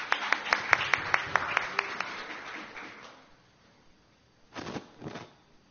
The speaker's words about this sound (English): Okay, I hereby decree that if there's a pause, we will clap one by one for people rather than waiting for the whole group.